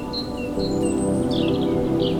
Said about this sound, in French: orchestrés par le chant des oiseaux